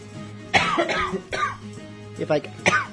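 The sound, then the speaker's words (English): A person coughs in a few short, harsh, raspy bursts spread over several seconds. Some of the coughs are voiced and throaty, like clearing the throat, and no words are spoken. “if I can do it without coughing. I swear to God, it's only when I talk.”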